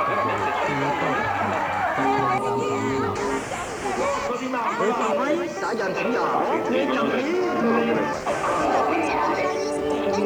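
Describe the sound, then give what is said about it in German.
Several mobile phones ringing at once in a corridor at night, dense overlapping electronic tones, with a man's hurried running footsteps back and forth beneath them, loud and continuous throughout. “Handy klingeln auf einem Gang. Man hört, wie ein Mann panisch hin und her rennt, in alle Richtungen, auf das Klingeln zu und wieder weg. Er sucht, aber er findet es nicht.”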